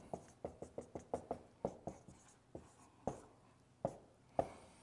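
A hand draws Hebrew letters on paper, making a faint series of sharp strokes. They come in quick succession at first, then grow sparser and more spaced out.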